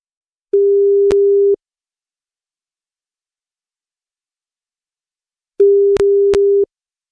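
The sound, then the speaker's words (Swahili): Ringback tone on an outgoing telephone call: two long, steady buzzing tones, each about a second, separated by a long silence, with no voices. “kuna simu yake ndio inaitana”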